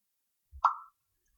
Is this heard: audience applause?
no